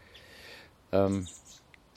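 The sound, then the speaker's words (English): A female blackbird giving a single short call, one clear note lasting under half a second against a quiet background. “Well, it's a female blackbird”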